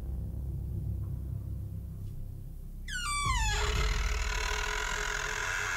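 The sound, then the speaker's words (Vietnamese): A heavy wooden door creaks slowly open in one drawn-out squeal that slides down in pitch, then gives way to a low rumble and steady hiss. “Cánh cửa kẽo cả kẽo kẹt, rít lên một tiếng nặng nề. Sau đó từ từ mở ra.”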